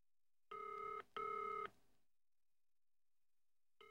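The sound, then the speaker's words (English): Push-button telephone dialing tones as a number is dialed for directory inquiries: two steady, clear electronic beeps in quick succession, each about half a second long, with a third tone just starting at the very end. “Please dial 192 for directory inquiries.”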